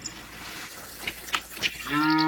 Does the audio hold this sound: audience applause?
no